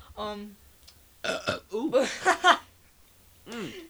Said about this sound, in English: I just had ice cream, so I burped and it like tasted like chocolate.